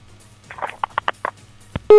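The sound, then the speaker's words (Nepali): A phone call disconnecting, heard as a quick run of several short electronic tones of varying pitch, then a loud, steady line tone cutting in at the very end. “मलाई थाहा थियो phone disconnect हुन्छ भनेर”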